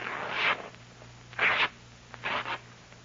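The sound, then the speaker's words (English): A mattress is ripped open by a gloved hand, giving a few short rasping tears that separate into distinct bursts over a faint steady low hum. “To rip out the mattress. Put on your gloves first, Jones.”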